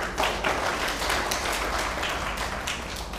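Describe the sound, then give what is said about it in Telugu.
An audience at a devotional discourse bursts into clapping after words of praise, a fairly quiet but steady patter of many hands that eases off slightly toward the end. “చూసారా పొగడతలు, ఇలా పొగడగానే చప్పట్లు కొట్టారు.”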